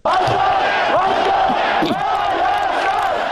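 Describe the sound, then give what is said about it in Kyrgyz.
A protest crowd outside parliament on Baghramyan Avenue chants a slogan for a free, independent Armenia. Many voices shout together in a loud, continuous mass, rhythmic and unbroken. “Эркин көз карандысыз Армения деп кыйкырып турушту.”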